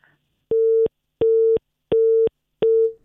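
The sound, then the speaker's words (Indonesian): Busy tone on a phone line after a call dropped: four steady, mid-pitched beeps of equal length, evenly spaced with short silent gaps, loud and alone. “kami mohon maaf pendengar, informasi dari Edi Dwi Purwanto ini terputus.”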